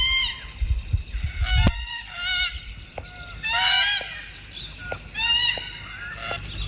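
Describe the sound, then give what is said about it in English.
Red-tailed black cockatoo calls: a series of harsh, nasal, honking cries repeated many times over a low, faint background rumble, with one sharp click partway through. “That was the red-tailed black cockatoo, which Viv thought it might have been.”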